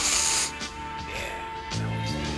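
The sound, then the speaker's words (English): A person sniffs a substance, opening with a loud, breathy nasal inhalation, followed by quieter hissy breathing and another brief sniff. “I want to sniff that. Come on, sniff some more.”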